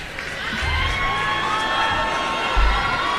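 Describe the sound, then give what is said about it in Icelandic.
An audience cheers a guest on stage, raising loud whoops and shouts that hold steady for a few seconds and swell briefly near the end. “Góða gestir, Hreimur okkar Heimisson. Gefir honum góða klapp.”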